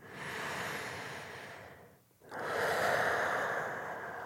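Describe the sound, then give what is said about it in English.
Deep breaths during a guided breathing exercise: two long, airy breaths, each rising and fading, separated by a brief quiet pause, with no talking. “Okay, so start in the usual way. Couple of deep breaths.”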